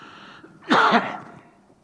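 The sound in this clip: A single harsh cough with throat clearing from a tickle in the throat: one rough burst that fades out over about half a second, with no talk around it.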